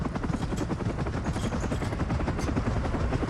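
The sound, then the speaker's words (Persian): Helicopter rotor and engine roar, a loud, continuous, dense rumble with fast rhythmic thumping throughout and no break. “و هلیکوپتر مال توه؟”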